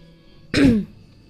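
A single brief throat clearing from a person with an itchy throat: one rough burst with a falling tone that stands alone over a faint steady hum.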